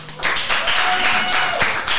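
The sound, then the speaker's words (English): Audience at a rap battle cheering and applauding for a battler, a loud dense wash of claps and crowd noise filling the whole moment without a break. “All right, audience, it's up to you. If you feel like O'Shea Bogus won that one, make some noise.”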